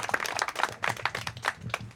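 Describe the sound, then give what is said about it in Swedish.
Scattered audience clapping at a meeting in Tyresö, greeting the chair of the elderly and care committee; a thin, uneven patter of hand claps, fairly faint, with no voices over it. “Kan ni ge honom en applåd? Tack så mycket.”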